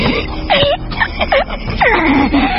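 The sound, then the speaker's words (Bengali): An old man groaning while being choked, with a few wavering, strained moans and throaty sounds, loud and broken into short bursts. “কোকে উঠে হাত পা ছুঁড়তে থাকেন বৃদ্ধ। ওর গলা দিয়ে কেবল একটা গুঙানি শব্দ বেরিয়ে আসে।”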